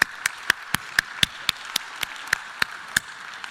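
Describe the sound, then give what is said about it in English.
Clapping welcomes a missionary at a church gathering: sharp, evenly spaced claps fall in a steady, quick rhythm throughout, with no voices over them. “It's my pleasure to introduce you to Nancy Valnez, one of our extraordinary missionaries. Would you give her a big hand here today?”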